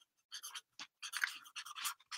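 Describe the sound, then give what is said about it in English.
A pen writes words on a post-it note in a few short, dry scratching strokes separated by brief pauses, faint and close, with no talking. “And I'm going to write these words:”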